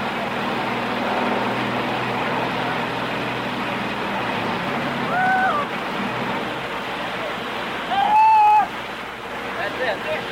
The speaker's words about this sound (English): I think perhaps the best thing we could do is just hang this mic over and pick up the grind of that generator so that we'll be sure and pick it up.